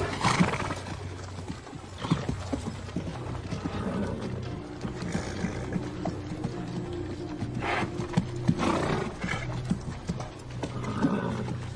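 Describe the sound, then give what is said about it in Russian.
Horses neighing and stepping warily between large stones as riders urge them on, with steady clopping hooves under a dense, continuous bed of sound and a few louder bursts. “Монголы осторожно ведут своих коней между ними. Кони ржут и с опаской идут вперед, подгоняемые всадниками.”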